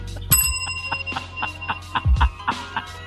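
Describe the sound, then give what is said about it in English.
A small bell is rung rapidly many times in a row, giving bright, metallic, evenly spaced rings with some ringing on between strikes, and no talk. “Ring the bell on that one.”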